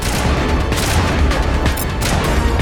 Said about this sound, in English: Oh my gosh, it's more people, they're shooting at us.